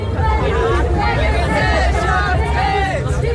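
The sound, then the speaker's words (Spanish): Crowd hubbub from a Berlin street protest over rising housing prices: a dense, steady babble of many voices and shouts that stays loud and even from start to finish. “Este es el sonido de una de las recientes protestas en Berlín por el aumento del precio de la vivienda.”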